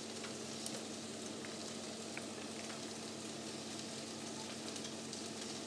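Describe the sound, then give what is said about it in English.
Mince and vegetables covered in sauce sizzle in a pan with a steady, dense frying hiss that holds an even loudness throughout, with faint ticks on top and no voices. “All the mince and vegetables are covered with the sauce.”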